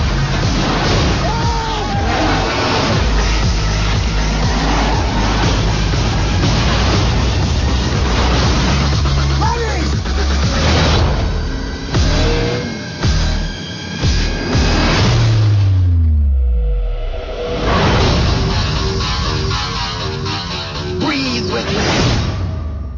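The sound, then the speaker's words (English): Car engines rev and roar in an action movie trailer, mixed with dense music, whooshes and voices. A falling engine tone sweeps down near the end. “that was a little trailer from Fast and Furious 6, or Fast 6, Furious 6, whatever it is”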